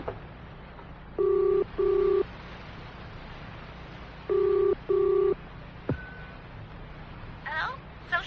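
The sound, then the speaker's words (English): A telephone is dialled with four steady touch-tone beeps. They come in two pairs, with a pause of a couple of seconds between the pairs, and quiet noise follows. “I'll give them a ring.”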